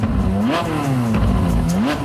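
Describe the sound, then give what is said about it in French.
A silver-grey Ferrari sports car's engine revs hard at around 200 km/h, a loud continuous roar whose pitch surges upward twice. “l'ivresse de la vitesse à 200 km/h dans sa Ferrari gris”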